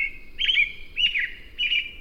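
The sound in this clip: A songbird sings in spring, repeating three bright, high chirping phrases separated by short pauses. The song stands alone over a faint, low background.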